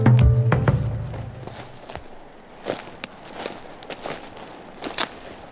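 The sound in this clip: Footsteps of people walking outdoors on a hunting trip with the wind at their backs give a few irregular, soft crunching steps, faint and spread out, with no voices.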